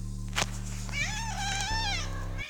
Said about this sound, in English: the cat came back.